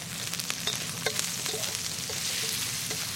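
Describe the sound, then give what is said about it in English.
Skinless sausage meat sizzles steadily as it fries in a pan, while being stirred and pressed down, with scattered scraping clicks rising over the constant hiss. “I kind of just like to swizzle it around like that. And kind of press it down.”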